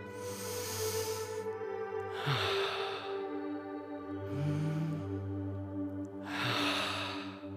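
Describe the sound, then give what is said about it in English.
Deep breaths are taken while lying with the head resting on the floor during a children's movement exercise. About four long, airy breaths swell and fade in turn over a steady musical background. “And taking a deep breath.”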